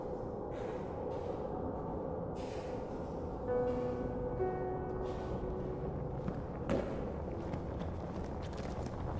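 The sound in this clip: Footsteps thud on wooden steps, a few soft irregular impacts over a steady low background hum.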